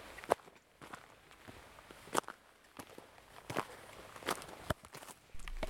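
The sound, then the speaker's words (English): Footsteps of hikers carrying backpacks along a trail: soft, irregular steps with a few sharper scuffs and crunches standing out from a faint, steady background, with no voices. “We have just been walking for 4 hours or so. We have already learned how to pace ourselves to the weight of the backpack, to the wind, to the ups and downs of the trail.”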